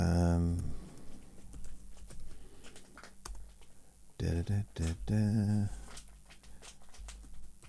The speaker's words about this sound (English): so if I just click on change